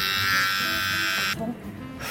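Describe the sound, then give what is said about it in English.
Electric trimmer shaving off someone's eyebrow gives a steady, bright buzz for about a second and a half, then cuts out abruptly. People talk over and after the buzzing. “I'm like shaking because I'm not used to cutting other people's eyebrows. This is terrifying.”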